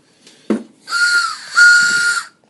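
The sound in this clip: A person whistles in imitation of a train whistle: two long, steady, fairly loud high notes run back to back after a brief breathy burst, then stop cleanly.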